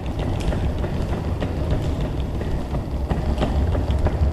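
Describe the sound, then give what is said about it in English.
Suitcase wheels roll along a street in Paris, a steady rumbling rattle with scattered sharp clicks that continues without a break. “That's the sound of suitcase wheels, a sound we hear a lot in Paris these days as Parisians leave and tourists arrive.”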